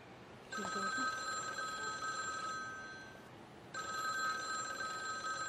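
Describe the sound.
A mobile phone ringing with a bright, steady electronic tone in two long ring bursts separated by a short pause. The ring is faint and there are no voices.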